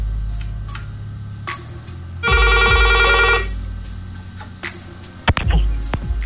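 A telephone gives one bright, trilling ring burst lasting about a second above a low steady hum, with a few scattered clicks around it.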